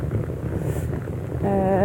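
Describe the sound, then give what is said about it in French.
Suitcase wheels roll over a street in Mulhouse with a steady, gritty rumble that runs the whole time. A high tonal whine joins in near the end as the sound grows a little louder. “Tu entends ma valise rouler sur la route.”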